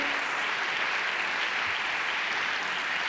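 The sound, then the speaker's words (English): Audience applause during a comedian's stand-up set: a dense, steady wash of many hands clapping that holds at an even level from start to finish, with no talk over it. “Hey, watch it, guys. Watch it. We gotta average our applause into our set, our 15 minutes. So we gotta be careful. Just real loud, real quick, and then okay.”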